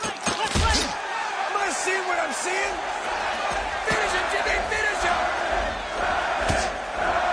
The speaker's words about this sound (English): Jim unleashes a flurry of punches.